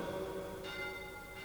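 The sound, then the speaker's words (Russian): Church bells ring faintly, sustained overlapping tones humming steadily, with two fresh strikes landing less than a second apart. “Это колокола Наина”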